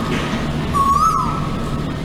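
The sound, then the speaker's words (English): Asian koel call: a single clear whistled note that rises in pitch, standing out over steady background noise. “That is the call of the Asian Kowal, also known as the Uwu Uwu bird, yeah? Now, some people love it, some people find it annoying, but it's also surprisingly loud.”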